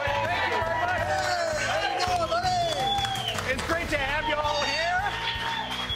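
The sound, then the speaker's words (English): A crowd at a diner chants for coffee, many voices overlapping in loud, continuous, rhythmic unison over busy background chatter. “Oh, they're chanting. They're chanting because they want coffee.”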